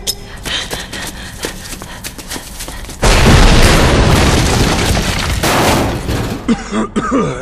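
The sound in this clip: Grenades explode after their pins are pulled: a sudden, heavy blast hits with a roaring, crackling rumble that slowly fades, preceded by a few faint clicks and pops.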